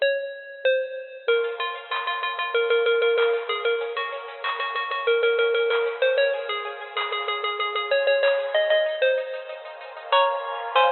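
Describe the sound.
A telephone rings out while someone is being called, as an electronic ringtone melody of bright, bell-like tones repeats in quick, evenly pulsing notes for the whole stretch, with no talk.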